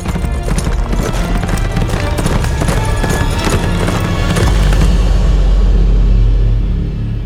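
Horse hooves clip-clop steadily as a rider rides away, a continuous patter of hoofbeats within a loud, dense mix of sound.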